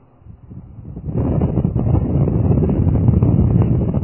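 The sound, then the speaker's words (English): Electric fans blow air in an auditorium, a broad, low, rushing roar that is quieter at first, then jumps up after about a second and holds steady and loud. “I'm trying to get the fans adjusted.”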